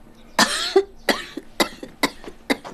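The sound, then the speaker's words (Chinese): An older woman coughs in a fit: many harsh, hacking coughs in quick succession, loud and irregular, with small catches between the stronger bursts. “看你咳嗽”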